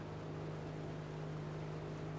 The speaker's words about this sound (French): Pour naviguer sur le lac, certains bateaux ont des moteurs.